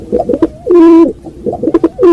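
Pigeons cooing in two rounded, throaty phrases, each a cluster of soft, low burbles that ends in a longer sustained coo, fairly loud and with no voices.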